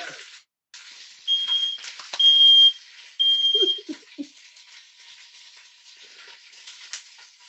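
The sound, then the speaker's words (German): Chicken pieces sizzling as they fry in a pan, giving a steady, faint crackling hiss. A few short, high electronic beeps sound over it in the first half. “Die brutzeln ganz schöne. Dreh mal ein bisschen runter.”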